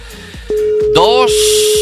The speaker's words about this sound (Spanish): A ver si Samuel nos coge el teléfono.